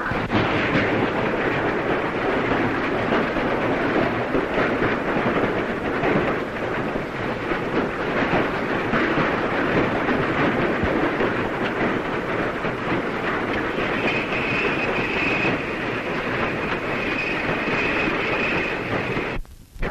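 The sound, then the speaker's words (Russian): Armoured trains rumble along the rails in a loud, continuous, heavy roar that stays dense and unbroken from start to finish. “Вооруженные поезда.”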